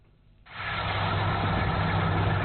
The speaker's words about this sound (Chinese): 在安徽黄山市歙县镇村镇梅村的油菜田里，大型收割机正开足马力穿梭作业